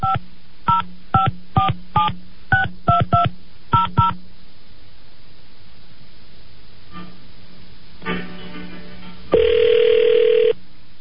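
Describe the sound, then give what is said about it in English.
Touch-tone dialing for a call to a governor's office voicemail line: a quick series of crisp keypad beeps, then a quiet pause with a faint buzz, and a loud, steady tone near the end. “I'm going to put you on hold. This is what the governor's office, if you call the governor's office, this is what the voicemail sounds like.”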